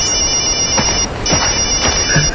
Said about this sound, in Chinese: 杨主任，我的电话。